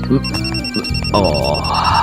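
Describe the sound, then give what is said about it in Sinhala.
A phone ringtone plays a song-like melody, loud and continuous, with bright, repeated electronic notes sustained throughout. “ඔන්න උඹේ phone බාගේ සින්දු කියන එක බෙල්ල මිරිකගෙන මැරෙන්න හදනවා. ඒක උස්සපා.”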